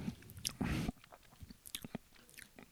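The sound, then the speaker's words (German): A sip of a drink: a short, loud slurping rush near the start, followed by a few faint, scattered mouth clicks and small wet sounds. “Ich, ich nehme nochmal einen Schluck, vielleicht wenn ich nicht besser wüsste, würde ich sagen Plastik.”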